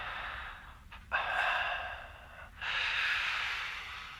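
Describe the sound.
Heavy breathing from a caller on a radio call-in telephone line: a few slow, drawn-out breaths, faint and thin, with brief pauses between them.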